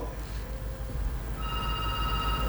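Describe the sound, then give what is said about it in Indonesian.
A phone rings for an outgoing WhatsApp call. A steady electronic ringing tone starts partway through over a low background hum. “Kita ke telepon WhatsApp lagi dulu ya.”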